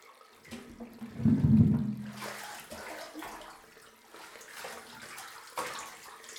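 Hot water moving in a bathtub, with one fuller surge of sloshing water early on, followed by softer, intermittent lapping and trickling. Quiet, with no talk.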